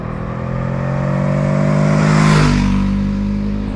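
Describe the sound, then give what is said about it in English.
The engine of a 2023 Honda CL500 motorcycle accelerates at speed: a loud, steady drone whose pitch climbs gradually and swells to a peak just past the middle before easing slightly, with no talk. “So what is the Honda CL500 like at faster speeds? Well, first of all, it will get you there no problem at all.”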